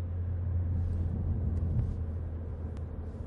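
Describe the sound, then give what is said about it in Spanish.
Steady low engine rumble of a car being driven in a film scene, an even droning hum with a few faint clicks on top and no voices. “Más tarde va conduciendo su coche.”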